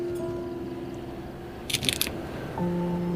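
Crunchy bites from someone eating, a short, fairly sharp cluster of crunches near the middle over a steady humming background, with no talking.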